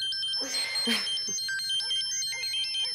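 An early-morning phone call rings at home as an electronic ringtone: a repeating, high-pitched pattern of short melodic tones, with a brief burst of rustling noise near the start.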